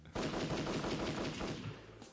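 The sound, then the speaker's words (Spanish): Rapid machine-gun fire and gunshots: a loud, sustained burst of closely spaced reports that runs for about two seconds, then thins out and fades at the end. “A los tiros andamos.”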